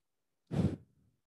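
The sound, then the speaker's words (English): A single deep breath is blown straight into a microphone: a loud, low, rushing exhale lasting under a second that fades into a soft, breathy tail. “I did not mean to breathe into the mic for all the listeners out there.”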